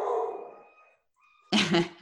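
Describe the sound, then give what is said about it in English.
Dogs make excited sounds: a drawn-out, whining tone fades out, then after a short pause comes one loud, rough bark. “My dogs are very excited about that question. You might hear them barking in the background.”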